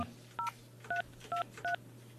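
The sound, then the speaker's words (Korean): Telephone dialing tones as a call is placed to a listener: four short, clean dual-pitch beeps spaced by brief pauses, with a faint steady hum underneath. “자, 일단은 이분한테 한번 제가 네. 직접 한번 전화를 걸어보도록 하겠습니다.”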